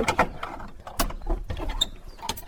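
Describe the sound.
A key works the lock of a baroque granary door, giving an irregular run of metallic clicks, scrapes and rattles. The sounds are moderately loud, with a few sharper clacks among them.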